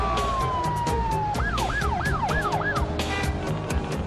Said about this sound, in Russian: Едет скорая помощь, пожарная машина.